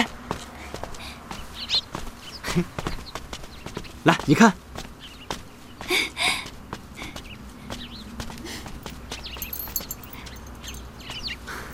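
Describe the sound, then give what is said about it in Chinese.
A horse is heard, with irregular hoof clip-clops and scattered bumps and shuffles at moderate loudness, including a louder cluster of sounds partway through. “来，你看， 这匹吗？对，这是匹好马，好精神啊！”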